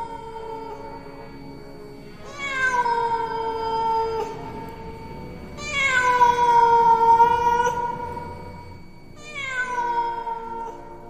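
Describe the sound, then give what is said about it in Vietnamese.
A black cat meowing three times, each a long, loud, drawn-out cry with rich harmonics, separated by short pauses. The middle meow is the longest and strongest. “tự nhiên lại nghe meo một tiếng khô khốc. Một con mèo đen chạy vụt qua đám lửa”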